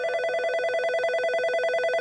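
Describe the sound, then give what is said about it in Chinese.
A mobile phone rings with a continuous electronic ringtone, a bright, harmonic tone with a fast, even warble that holds at a steady level throughout and plays alone without voices. “围裙妈妈的电话，正好我问问她。”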